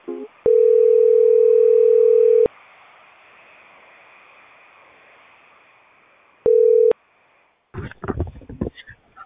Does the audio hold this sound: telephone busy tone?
yes